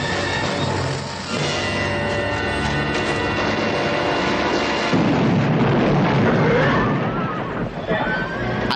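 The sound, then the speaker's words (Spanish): Dynamite thrown onto a campfire explodes in a 1973 western train-robbery film scene, a deep rumbling blast swelling in the second half over a steady sustained backdrop. “Ben lanza la dinamita sobre la hoguera y luego huyen.”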